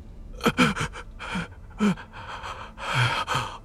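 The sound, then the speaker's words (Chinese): An old man pants heavily in fear, a voice acting out a run of ragged, rasping breaths and voiced gasps that come in uneven bursts with short pauses between them. “老丈被吓得一抖，随即惶恐不安地喘着粗气就要起身。”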